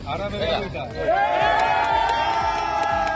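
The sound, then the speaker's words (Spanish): Crowd cheering and shouting from Spanish military emergency rescuers after they pull survivors alive from earthquake rubble. The voices form a loud, sustained burst of whoops and raised calls. “Y entre la devastación, la alegría de los rescatistas cuando consiguen sacar de entre los escombros a personas con vida. Este es el sonido de los brigadistas españoles de la UME, de la Unidad Militar”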